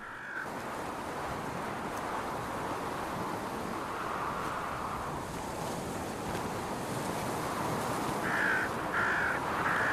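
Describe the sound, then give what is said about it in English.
Smaller birds mob an eagle with harsh, cawing calls over steady surf and wind. Scattered calls are followed by a quick series of calls near the end. “More of the smaller birds are now joining in with the mobbing.”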